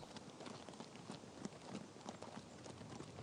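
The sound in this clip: Hoofbeats of riders on horses approaching a palace in Amasya: a soft, steady patter of many hooves clip-clopping in a loose rhythm at a low level.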